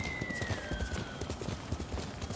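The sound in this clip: Horse hooves clip-clop while a horse is ridden in a video game. Steady, rhythmic low thuds continue throughout under a thin, high sustained tone, with no talking.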